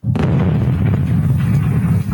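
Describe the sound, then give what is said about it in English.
A bomb explosion sound effect hits with a sudden, loud boom and then rolls on as a heavy, sustained low rumble. “Somebody throw the bomb sound on that one.”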